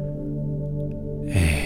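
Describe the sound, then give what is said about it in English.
A deep breath taken during a calming countdown comes as a brief, sharp airy rush near the end, rising above soft, steady background tones. “Just take a nice deep breath.”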